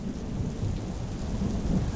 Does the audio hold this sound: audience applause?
no